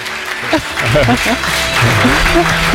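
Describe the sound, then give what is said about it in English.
Applause at an award ceremony for footballer Harry Kane, winner of the 2026 Golden Shoe Award: a steady bed of clapping runs throughout while a voice speaks loudly over it. “A great round of applause for Harry Kane, the winner of the 2026 Golden Shoe Award.”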